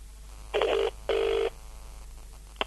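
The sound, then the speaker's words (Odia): Telephone ringing on an outgoing call to a grocery shop: two short electronic ring bursts, each under half a second with a brief gap between, heard alone with no talk. “ହଁ ହଁ ହଁ ହଁ, ring ହଉଛି ring ହଉଛି।”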